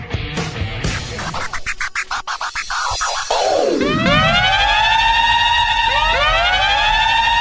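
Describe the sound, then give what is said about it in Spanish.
A siren signals the start of a new segment of a TV program. It follows a stretch of scratchy, clattering noise and a falling sweep, then wails loudly in repeated rising tones that keep overlapping and sustain to the end. “Suena la sirena en Alfin Solos. Y esto es señal de que el programa empieza a tomar otro tinte.”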